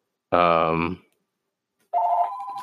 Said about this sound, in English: Pardon the phone.